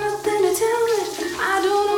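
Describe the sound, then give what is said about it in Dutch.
A running shower hisses steadily under a voice singing along with music, the water spray spreading broad noise beneath the melody throughout. “Je stapt onder de douche en je zingt mee met de radio.”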